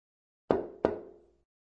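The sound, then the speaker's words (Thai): Two quick, hollow knocks on a door, each ringing briefly before fading; fairly quiet with no other sounds around them. “นั่นเสียงคนเคาะประตูหรือเปล่าคะ ใช่ครับ”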